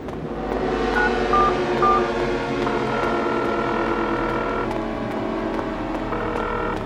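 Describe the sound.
Three brief telephone keypad tones as someone dials an emergency number, sounding over a steady, continuous background.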